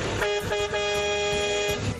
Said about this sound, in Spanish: acaba mi bocina